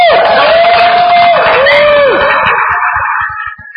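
An audience at an atheist convention cheers loudly, with shouts and high whoops rising above the roar of the crowd, which thins out toward the end.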